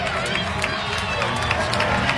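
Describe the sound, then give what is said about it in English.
A baseball crowd of over six thousand roars after a game-tying home run, a dense, loud wash of cheering that stays level for about two seconds. “Crowd of 6,200 plus going bananas as Amaya has just tied the game at 5.”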